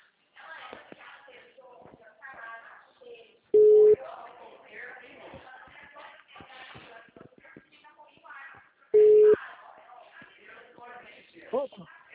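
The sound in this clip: A telephone busy tone sounds after a dropped call: two short, steady mid-pitched beeps several seconds apart, cutting through continuous talk.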